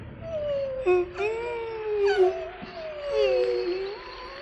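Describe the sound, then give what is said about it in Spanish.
A wolf whimpering: drawn-out, mournful tonal whines that waver slightly in pitch and overlap one another at moderate loudness, with no talk over them. “Pero los lobos no lloramos, por lo que gemí como gimió mi madre.”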